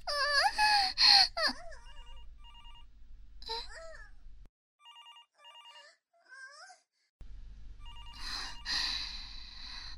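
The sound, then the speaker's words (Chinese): A telephone rings in repeated trilling bursts between moaning, wailing voices and a child's cries. In a quieter middle stretch the ringing carries on alone before the voices return loudly. “到底是谁啊？在这个时候打电话过来？”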